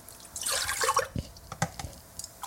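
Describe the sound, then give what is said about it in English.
Milk poured from cups into a pot for making bannock gives a soft splashing pour, followed by a few light drips and trickles, fairly faint and without talk. “pouring the milk in cups into the pot.”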